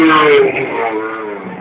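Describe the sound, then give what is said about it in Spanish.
An Osella barchetta race car passes on a road, its engine a loud, buzzing drone that slowly eases in loudness over a second and a half. “Vemos el último vehículo ya que queda por aquí, esa barqueta Osella, ahí lo tienen.”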